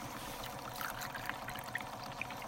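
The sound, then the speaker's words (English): Water is poured from a bucket into a filter pump beside a snow-covered pond. It makes a steady, faint rushing stream with a few small splashy ticks. “pours the water into a pump”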